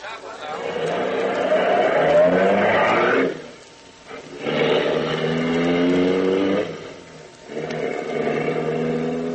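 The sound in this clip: A car speeds off fast up a side road, its engine roaring loudly in three long surges separated by two brief dips, like gear changes.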